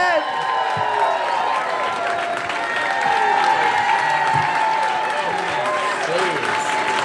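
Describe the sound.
Sustained applause and cheering from an audience at a live storytelling show in Baltimore, greeting a performer as she is introduced; dense, steady clapping fills all seven seconds with scattered whoops mixed in.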